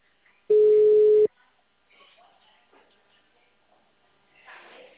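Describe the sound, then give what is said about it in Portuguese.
A telephone tone as a call is placed: one steady, loud, mid-pitched electronic tone lasting under a second, followed by a few faint, soft sounds. “Vou fazer ligação.”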